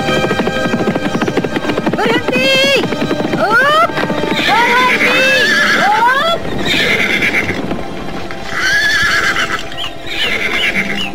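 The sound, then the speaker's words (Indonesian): Horses belonging to a band of robbers whinny again and again over a continuous, dense layer of hoofbeats and movement, loud and busy for the whole stretch. “Aku yakin itu pasti suara langkah-langkah kaki kuda dari kawanan perampok.”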